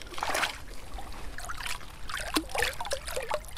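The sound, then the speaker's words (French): Feet dip into river water at the bank of a polluted river. Soft trickling and a few small, quiet splashes and drips are heard. “Oh, I might get my feet in if that's okay. Oui, je vais au moins mettre mes pieds dans l'eau.”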